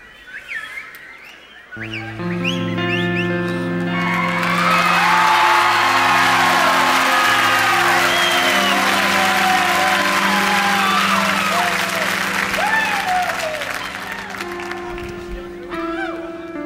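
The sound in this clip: A live concert crowd cheers, whoops and whistles loudly over sustained music. After a short quieter opening the noise swells into a continuous roar of shouting voices and clapping that stays strong before easing near the end.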